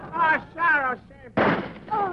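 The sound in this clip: Single gunshot from a gun in a radio drama: one sharp, loud blast of noise between shouting voices.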